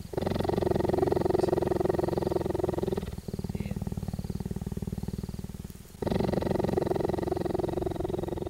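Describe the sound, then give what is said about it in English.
A cheetah purring while being petted: a deep, continuous rumbling purr, lower than a house cat's, with a steady pulsing texture that shifts to a rougher, more clipped rhythm in the middle before returning, loud throughout. “it's the sound of our next guest petting a cheetah. Cheetahs, pumas, lynxes, and some other big cats purr, just like house cats, a little deeper as you heard there.”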